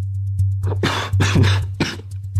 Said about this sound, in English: interrupting his sentence with a mixture of chuckling and coughing.